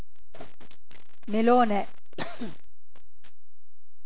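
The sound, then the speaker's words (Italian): A harsh cough with rough throat clearing breaks into an Italian roll call of surnames. One thick, voiced burst stands out, followed by a shorter rasp, with quiet gaps around them. “scusi, tossivo”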